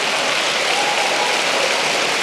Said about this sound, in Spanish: Denle un aplauso al Señor por eso.